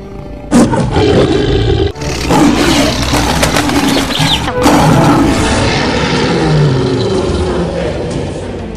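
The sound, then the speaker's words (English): A lion roars in an animated film soundtrack, a loud, deep, rasping roar that surges in a few powerful bursts and holds its strength nearly throughout, with no talking. “I'm going to include the sound of a lion roaring right here. And this is the sound of a lion roar in Lion King.”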